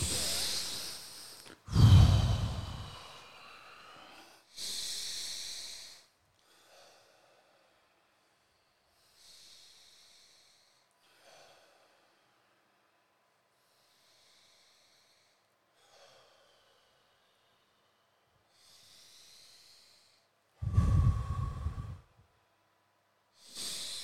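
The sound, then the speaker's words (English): A group of six young men take deep breaths together, making a few loud, rushing inhales and exhales separated by long quiet gaps with faint breathing in between. “All right, six deep breaths.”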